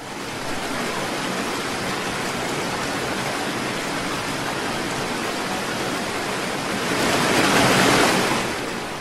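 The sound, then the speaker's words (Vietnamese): Large ocean waves crash one after another on the open sea around a boat after an earthquake. A continuous, loud rushing roar swells into a louder surge near the end, with no voices. “Những con sóng lớn cứ nối nhau va đập sau lưng dư chấn vẫn chưa dứt. Chỉ trong mấy phút đồng hồ ngắn ngủi, khắp nơi đều là những con sóng chồng lên nhau”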